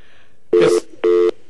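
A telephone rings for a phone-in call with two short, even buzzing tones of steady pitch, separated by a brief gap.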